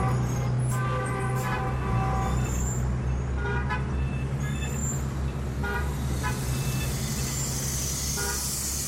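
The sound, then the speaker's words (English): Dense street traffic in Beijing roars without a break, with many short car-horn toots cutting through the steady rumble of engines. “Lao Wong gets on his bicycle and rides into the wall of sound known as modern Beijing.”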